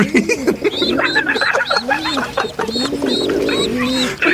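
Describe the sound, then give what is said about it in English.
Pigeons cooing in a dense, continuous chorus of overlapping low, rounded calls, with a few higher chirps mixed in. “What is wrong with the pigeons, man? I don't want to catch a pigeon flu.”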